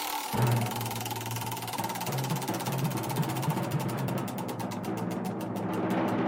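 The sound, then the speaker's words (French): A spinning prize wheel: rapid ticking of its pointer against the pegs, the clicks spreading out as the wheel slows, over a steady low hum. “Je fais tourner ma roue.”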